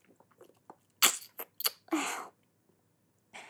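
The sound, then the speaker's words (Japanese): Someone eats ice cream after a bath, making quiet mouth sounds: a few soft ticks, then several short bursts of wet munching and slurping separated by pauses. “風呂上がりはアイスだよね。”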